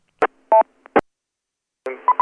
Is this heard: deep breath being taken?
no